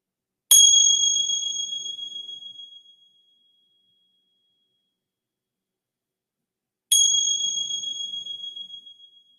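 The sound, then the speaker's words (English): A meditation bell is struck twice, several seconds apart. Each strike gives a bright, clear ringing tone that slowly fades over a few seconds, with silence between the two strikes. “receiving the sounds of the bell”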